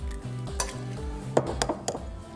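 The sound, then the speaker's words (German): An egg cracked into semolina, finely ground durum wheat, for fresh pasta dough. A few sharp clicks and taps of shell and bowl sound over a low, steady background. “Und ich setze jetzt hier schon mal meinen Nudelteig an. Das ist ja das Wichtigste. Dafür nehmen wir Semola. Das ist nichts anderes als fein gemahlene Hartweizengrieß. So. Dann mache ich ein ganzes Ei mit rein.”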